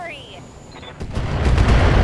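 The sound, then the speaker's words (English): Long-range missiles fired at an enemy mech in a video game: faint whistling tones first, then a rapid rumbling barrage of impacts that starts midway and grows louder toward the end. “Ooh, that's a good hit. I think all five missiles hit, except that... thing with missiles is that they hit their... every individual missile rolls its own hit location, so...”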